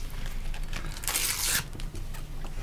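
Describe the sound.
A Panini World Cup sticker pack is torn open in one short ripping burst, with quieter crinkling of the packaging before and after.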